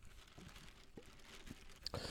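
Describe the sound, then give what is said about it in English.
Crinkling plastic rustle as a paper slip is drawn from a Long and McQuaid plastic bag, a soft, continuous crackle with a few sharper crunches and a louder burst of rustling near the end. “We've got the Long and McQuaid plastic bag here. We're going to draw a song”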